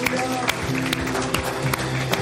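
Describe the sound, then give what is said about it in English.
A church audience claps as an offering to the Lord, with brisk, repeated claps and scattered crowd noise over sustained musical tones that ring steadily underneath. “Can you give the Lord a clap offering today?”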